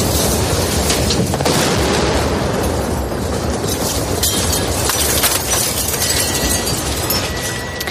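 Explosions from the shelling of the city of Mariupol form a loud, dense, continuous roar with crackling bursts and deep rumbling throughout, with no clear pauses between blasts.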